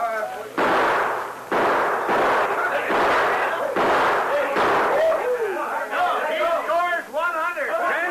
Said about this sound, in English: Hand me the gun, fella. It is, ready to fire. Hey, watch this, you galoots.